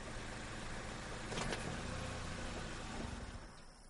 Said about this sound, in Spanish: Hay dos coches, un tercero se acerca levanta polvo a su paso.